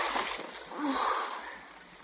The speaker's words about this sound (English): See what you've done? You dropped it in the water.